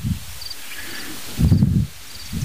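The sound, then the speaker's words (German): Wind buffets the microphone outdoors beside a hedge, giving a few low, rumbling gusts that swell and drop away. Faint high bird chirps recur through the gaps between them. “ihr müsst leider etwas Windgeräusche ertragen”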